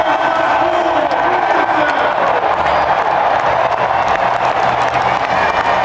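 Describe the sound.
A dense stadium crowd at the LSU–Alabama football game roars and cheers for President Trump, a loud, continuous wash of voices and shouts with scattered clapping throughout.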